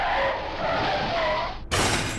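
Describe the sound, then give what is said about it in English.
A car swerving and skidding off an icy mountain road after a blast: a long, harsh, noisy skid with a wavering whine, cut off abruptly by a loud, sharp crashing burst. “A wave of energy from the blast follows behind and causes their car to swerve off the road.”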